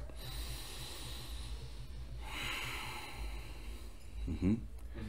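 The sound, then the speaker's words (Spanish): A person breathes in normally, filling the chest, in a slow, airy inhalation heard alone as a soft breathy hiss, followed near the end by a brief, sharper snort-like nasal burst. “Cuando uno respira normalmente, lo que hace es llenar el pecho. Tú respiras y haces.”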